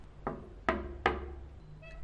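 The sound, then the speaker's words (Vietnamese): Three sharp knocks on a door, fairly quiet and evenly spaced, with nothing else heard around them. “Bây giờ chị sẽ gõ cửa nhé.”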